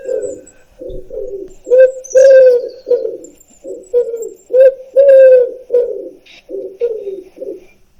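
A wood pigeon cooing alone: repeated soft, low, hooting phrases with a steady rhythm and short pauses between them.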